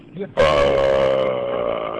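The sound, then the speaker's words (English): A man gives a single loud, drawn-out burp, a low droning rasp held steady for nearly two seconds before easing off slightly. “Oh, he's just burping.”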